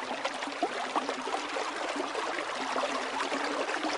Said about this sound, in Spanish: Después de un largo recorrido en silencio, escuché el rumor de un arroyo.